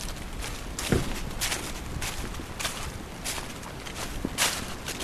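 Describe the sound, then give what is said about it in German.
Footsteps march up to a rocky summit in the rain: a few crunching steps at a steady walking pace over a constant hiss of rainfall, with no talking. “Wir marschieren jetzt auf den Kopf, auf den Felskopf.”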